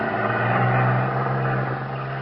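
A small cruiser's engine drones steadily and low as the boat pulls out to cross a channel to the mainland, easing slightly quieter toward the end.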